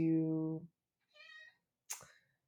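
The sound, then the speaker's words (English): A pet cat meows, a loud drawn-out call followed by a fainter, higher one, then a brief sharp noise. “Wow, my cat is just right up in this, in my business.”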